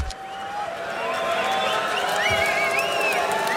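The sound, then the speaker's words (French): A crowd murmurs and cheers while waiting in the dark before a rock concert at the Route du Rock festival, with scattered whoops and high whistles rising over a steady roar. “Et vous entendez le public qui patiente ici. La scène est plongée dans l'obscurité.”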